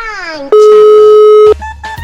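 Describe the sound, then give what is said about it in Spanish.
Ringing tone of an outgoing telephone call, a single loud, steady tone lasting about a second, with voices talking just before and after it. “Y vamos a ver si tenemos oportunidad de que nos reciban la llamada. Y está timbrando ya.”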